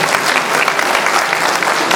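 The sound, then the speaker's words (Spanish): Audience applause at a school graduation ceremony honoring a top student, a loud, dense burst of clapping that fills the whole moment evenly. “Vamos a rendir un voto de aplauso, queridos, para el hermano.”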